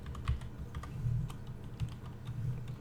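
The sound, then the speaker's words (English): Typing on a computer keyboard: many light, quick keystroke clicks in an uneven rhythm, with a few slightly heavier taps, heard alone without talk. “Let me type in, what was the question?”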